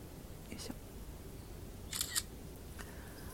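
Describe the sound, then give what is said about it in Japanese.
A camera shutter clicks once as a photo of a bamboo grove and cherry blossoms is taken: a brief, faint double snap over steady background hiss. “桜の写真をですね撮ったんですけれども”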